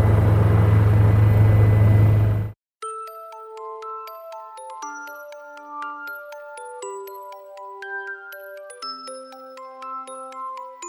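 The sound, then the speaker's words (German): An aircraft descends to land at a polar ice station, giving a loud, steady cabin drone with a strong low hum. The drone cuts off abruptly after about two and a half seconds, then gentle, tinkling chime music follows. “Aber ich sehe, wir landen langsam. Es geht runter.”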